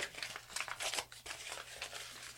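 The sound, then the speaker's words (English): Tape rips off a large cardboard box in a run of dry, rasping, crinkly bursts. The peeling comes in uneven pulls and stays fairly loud throughout, with no voices. “Let me just open this damn thing.”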